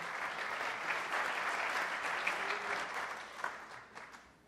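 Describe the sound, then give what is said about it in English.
A church audience applauds after worship, a steady, dense wash of clapping that holds level for about four seconds, then thins out and fades at the end. “Why don't we give God a hand for the worship that we just had?”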